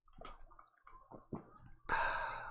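Gulping down a raspberry porter beer: a few wet swallowing sounds, followed by a louder, sustained breathy sound.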